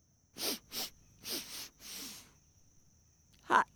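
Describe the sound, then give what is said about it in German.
Quiet nasal sniffing at spilled white flour powder: five short sniffs in quick pairs, then after a pause one sharper, louder sniff. “Ob ich mal daran schnuppere?”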